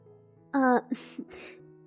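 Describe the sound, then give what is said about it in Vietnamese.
A single light cough or throat-clearing, short and fairly loud with a voiced, buzzy quality, followed by a few quieter, softer voiced sounds. “cuối cùng mới ho nhẹ một tiếng”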